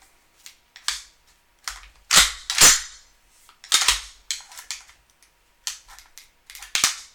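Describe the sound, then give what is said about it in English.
A semi-automatic gun is dry fired. Many sharp metallic clicks and snaps of the trigger and hammer come in irregular clusters, alone without talk. “But I'm going to try that trigger thing, see if it works on this. Because I've dry fired this.”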